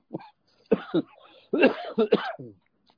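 A person coughs in a few separate harsh bursts, with short silent gaps between them and some throat-clearing quality. The bursts are fairly loud and no talk is heard alongside them.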